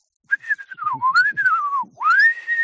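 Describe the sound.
A person whistles an imitation of a birdsong: a continuous phrase that glides down, lifts, sinks lower, then sweeps sharply up to a higher held note, with quick fluttering articulations along the way.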